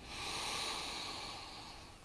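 A deep inhale in a guided breathing moment, eyes closed, draws in as a soft, steady airy hiss lasting about two seconds, swelling slightly, then easing off.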